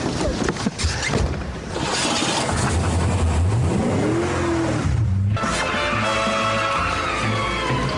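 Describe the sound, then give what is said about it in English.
Loud race car engine, the Mach 5, accelerating around a racetrack. A steady mechanical roar climbs in pitch as the revs build, then drops sharply before the engine continues at a high, buzzing pitch. “Driving around the racetrack in the Mach 5 is an amazing experience. And the more you press down on the pedal and the faster you go,”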